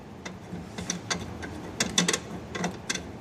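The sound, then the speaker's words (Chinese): Ratcheting clicks as a window-mounted air conditioner bracket is tightened: many sharp mechanical ticks at an uneven pace, some in quick pairs, over a steady low hum. “往上一扣，然后稍微拧紧就 OK 了。”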